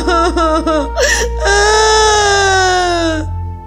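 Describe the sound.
A child sobs and wails in grief over his dead koi fish, giving a few short wavering cries and then one long, loud, sustained high-pitched wail with no other sound.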